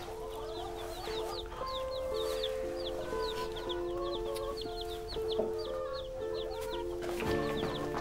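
Chicks cheeping and clucking, many rapid high-pitched peeps repeating throughout at a low level over a soft, steady melodic background.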